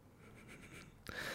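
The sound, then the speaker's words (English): A pen writes by hand, with soft, faint scratching on paper. “So I'll just write Manchester Hotel.”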